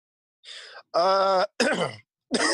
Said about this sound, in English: As he clears his throat